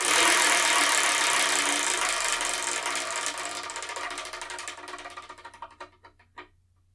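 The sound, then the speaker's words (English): Spinning selection wheel rattles with rapid ratcheting clicks that are loud at first, then slow and spread apart as the wheel loses speed and stops. “Anyway, so let me spin and see what I'm going to review in the next episode.”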